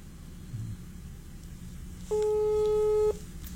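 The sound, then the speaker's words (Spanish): A single steady electronic telephone tone, about one second long, sounds while a call goes unanswered. It is a clear, even hum over faint background noise. “A ver si nos contestan, lo voy a llamar, le llamé de sorpresa.”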